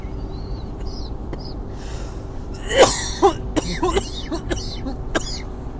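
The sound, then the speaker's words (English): Hard coughing from one person: a few harsh, explosive bursts grouped near the middle, loud against a steady low hum, then fainter rasping coughs toward the end. “I cough too hard.”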